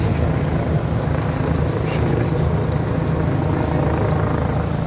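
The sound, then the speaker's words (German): Police helicopter circling over Berlin's Tiergarten park, its rotor drone a loud, steady low thrum that continues unbroken throughout. “Über dem Berliner Tiergarten, dem großen Park im Herzen der Hauptstadt, kreist am frühen Sonntagnachmittag noch immer der Polizeihubschrauber.”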